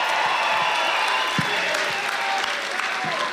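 A concert crowd at the Columbia-Halle applauds for the radio station Fritz's birthday. Continuous, moderately loud clapping forms a dense wash, with faint sustained tones running underneath.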